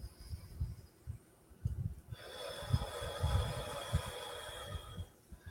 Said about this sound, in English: I'll take a deep breath.